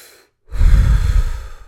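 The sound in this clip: Deep breathing through the mouth during a relaxation breathing exercise: a brief silence, then one long, loud, breathy rush of air that holds steady before easing off slightly.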